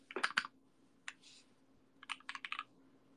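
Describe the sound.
Quiet typing on a computer keyboard: a few quick keystroke clicks at the start, a single tap midway, then a faster cluster of clicks near the end, with near silence between the bursts.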